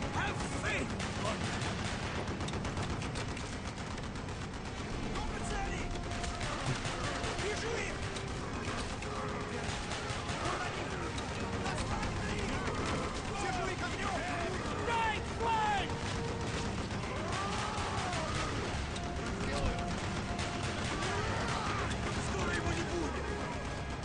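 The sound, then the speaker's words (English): Video-game gunfire and battle noise roar continuously and densely, with voices talking over the din throughout. “So they're doing the heavy pushing, and you're just shooting people in the face. Yeah, you're killing the guards.”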